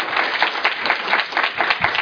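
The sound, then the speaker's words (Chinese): Audience applause welcoming a speaker, dense and even clapping at moderate loudness that runs steadily for about two seconds. “让我们以热烈的掌声欢迎王范旭老师。”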